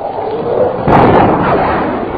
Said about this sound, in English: There's the boom. Yeah. Jordan's gone through the sound barrier. He must be diving to do that.